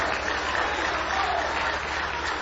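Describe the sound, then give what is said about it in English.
A church audience claps in steady, dense applause that holds at an even level throughout, with faint murmuring from the crowd underneath. “him a big hand clap of praise.”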